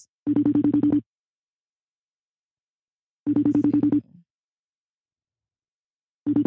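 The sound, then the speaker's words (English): A FaceTime video call rings with short, buzzy, pulsed tone bursts, each under a second long and separated by about three seconds of silence; three bursts are heard, the last one cut off. “Is it ringing? I was trying to see. Okay, let's see. I'm going to have to FaceTime it”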